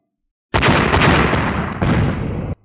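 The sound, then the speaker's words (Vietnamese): An explosion sound effect accompanies clashing magical blade and flame attacks in a fantasy fight, a loud, dense roaring burst that holds for about two seconds, with a second surge near its end, and no voices. “Ba tiếng nổ vang lên, ánh đao huyết hồng chấn động kịch liệt, nổ văng tung tóe”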